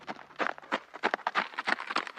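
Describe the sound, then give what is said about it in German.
Hoofbeats of a Przewalski's horse, a wild horse, being ridden: many quick, uneven thumps in an irregular rhythm, fairly faint. “Ich sitze nicht auf einem normalen Pferd, sondern das ist ein Przewalski-Pferd, ein Wildpferd.”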